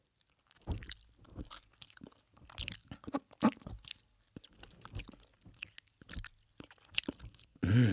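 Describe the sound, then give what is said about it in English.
Someone eats an undercooked grilled cheese sandwich in close, quiet ASMR style, with many irregular moist bites, crunches and chewing smacks, ending on a brief louder low thump. “Our first sound will be eating a undercooked grilled cheese.”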